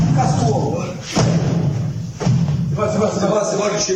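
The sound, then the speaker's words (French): Dull thuds of blows land on a man lying on the ground as his head strikes the ground. Two heavier, muffled impacts stand out, with voices heard throughout. “bruit mat qu'on entend, c'est les coups qu'il prend. Et exactement. C'est sa tête qui heurte le sol. C'est les coups que vous entendez.”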